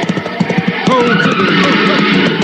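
A car skids after one of its tires is shot out, giving short squealing tire tones over rough engine and road noise through a brief, loud burst.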